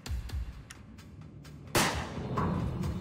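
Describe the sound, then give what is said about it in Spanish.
A single gunshot, fired by accident during a kidnapping, bursts out suddenly partway through as one sharp, loud blast. A few faint thuds come before it, and a noisy wash lingers after the shot. “Le tomó un minuto darse cuenta de que le habían disparado. ¡Le disparaste!”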